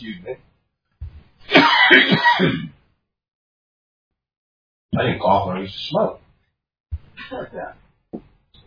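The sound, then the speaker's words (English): Harsh coughing and throat clearing from someone who says they no longer smoke, in a few separate bouts broken by silence, the longest near the start. “No, I'm not coughing because I smoke. I don't smoke anymore.”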